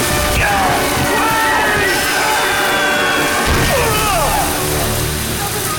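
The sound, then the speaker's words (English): A loud crash as a winch gives way and a heavy wheel comes down on a man, with grinding metallic scraping and screeching over a dense, continuous roar of noise. “The men trying to winch it into place are showered with sparks. Robin drops the bow and steps back as the winch gives way and one of the men is crushed by the wheel.”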